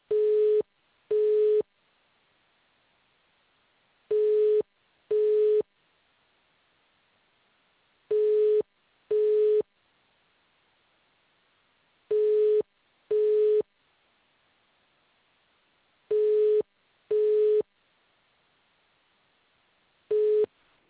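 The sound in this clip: A telephone on-hold tone plays while a call waits on the line: pairs of short, mid-pitched beeps repeat about every four seconds, with silence between each pair.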